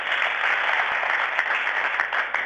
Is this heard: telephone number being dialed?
no